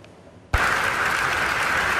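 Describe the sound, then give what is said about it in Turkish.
Applause from scientists for the results of a pancreatic cancer drug: a brief quiet, then a sudden burst of dense, loud clapping that holds steady to the end. “Bu ay tıp dünyasında çığır açacak pankreas kanseri ilacının sonuçlarını bilim insanlarının dakikalarca alkışladığı bu görüntülerle öğrendik.”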